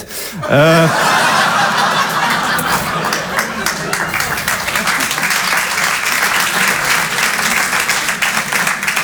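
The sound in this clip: Audience applause, a dense, steady wash of clapping that starts abruptly and holds for the whole stretch, with some chuckles and laughter mixed in.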